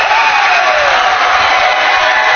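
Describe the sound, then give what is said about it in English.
A stadium crowd at a college football game roars wildly in the last seconds of a close contest: a loud, dense, sustained wall of cheering and shouting that stays at full intensity throughout. “This crowd's going crazy in the Baird end.”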